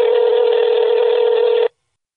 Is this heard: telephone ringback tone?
yes